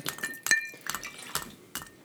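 A stir stick clinks against a glass while stirring a vodka cocktail with mixer: a few light, irregularly spaced clinks, one with a brief bright ring, over faint handling noise.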